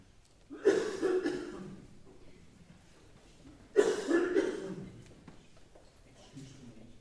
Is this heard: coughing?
yes